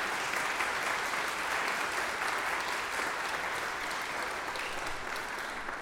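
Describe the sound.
A church audience at a Sunday service applauds to welcome a new member, a steady, full round of clapping from many hands that holds at an even level and eases slightly at the close.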